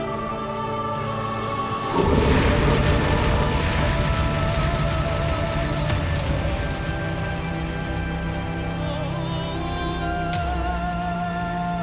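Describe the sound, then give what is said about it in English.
Drogon the dragon breathes fire on the Night King. After a quieter tonal opening, a sudden loud roaring rush of dragonfire bursts in and holds, then eases over a sustained tonal bed. “Drogon needs no command. He rears back, bares his teeth, and bathes the Night King in dragonfire.”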